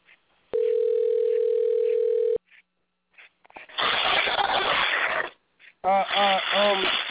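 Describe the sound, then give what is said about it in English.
Telephone dial tone while a call is being placed: a steady, even tone holds for about two seconds, then drops out to give way to bursts of hiss and a voice on the line. “I'm calling somebody's wife or something.”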